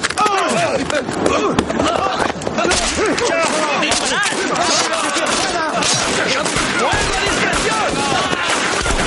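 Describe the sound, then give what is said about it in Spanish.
Gunfire rings out in a 2008 war drama as soldiers shoot at officers fleeing down a ravine. Dense, continuous volleys of shots mix with shouting voices throughout, loud and chaotic for the whole stretch. “Los soldados disparan contra los oficiales mientras estos huyen por el barranco. Los soldados disparan contra un oficial y este cae al suelo.”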